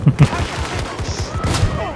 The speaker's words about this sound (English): Gunned us both down from behind.